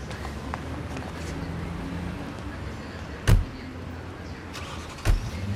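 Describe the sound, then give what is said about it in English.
A car drives off in front of a bustling airport. A low, steady engine rumble runs throughout, broken by two dull, heavy thumps. “They smile, keeping eye contact as the car drives off.”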